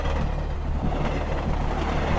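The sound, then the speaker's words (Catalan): A train passes through a railway station with a continuous heavy, deep rumble and faint rattling. The level stays steady and loud across the whole stretch, with no voices. “Un tren passa per l'estació de Sant Andreu Arenal.”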